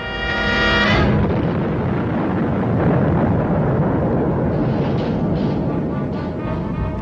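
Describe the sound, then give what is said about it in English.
Rocket launch blast: a loud, steady roar that fills several seconds without a break, opened by a short buzzing tone before the roar swells. “No rocket can rise anywhere in the world. 4, 3, 2, 1, fire!”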